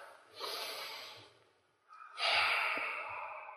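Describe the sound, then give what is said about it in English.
People in a church service take a big breath together: two long, airy breaths, the second louder and fuller, separated by a brief quiet pause. “Let's all take a big breath.”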